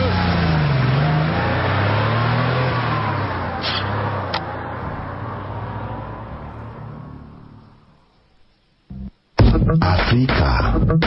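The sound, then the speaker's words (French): A car speeding along a straight seaside boulevard beside a beach, its engine a loud, steady roar with wavering pitch that gradually fades away. “Domingo Falco roule très vite, mais un kilomètre plus loin, sur la ligne droite du boulevard Manganimangua, devant la plage d'Aquapinto”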